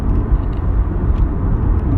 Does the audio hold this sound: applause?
no

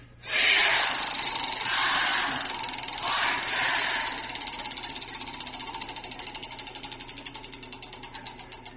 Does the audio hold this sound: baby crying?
no

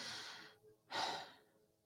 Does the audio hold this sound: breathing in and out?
yes

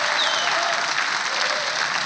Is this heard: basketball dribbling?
no

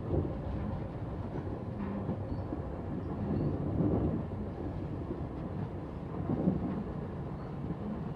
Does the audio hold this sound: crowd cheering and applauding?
no

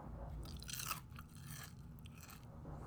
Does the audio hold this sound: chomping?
yes

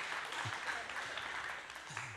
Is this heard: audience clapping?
yes

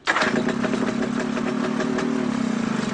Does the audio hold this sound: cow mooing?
no

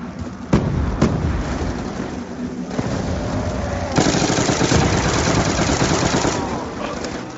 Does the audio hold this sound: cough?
no

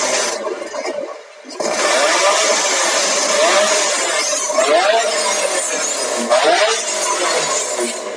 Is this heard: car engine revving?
yes

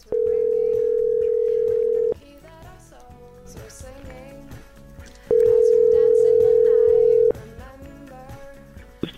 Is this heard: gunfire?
no

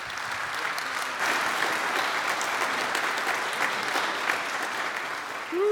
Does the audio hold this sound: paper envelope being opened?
no

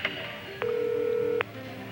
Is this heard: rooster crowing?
no

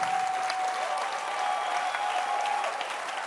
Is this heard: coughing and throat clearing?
no

